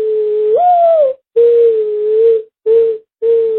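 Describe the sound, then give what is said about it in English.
A human voice imitating a mourning dove's call: four hollow, whistled coos, the first swelling upward then sliding back down, followed by three steady, lower coos split by brief silences. “it's basically me saying a bird, like, you know, "Morning dove," and then going,”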